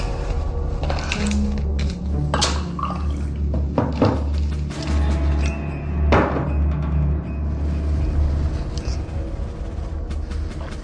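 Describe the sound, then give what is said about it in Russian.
Water poured in a steady, splashing liquid stream, broken by a few dull knocks, over a low constant hum. “Воды налей.”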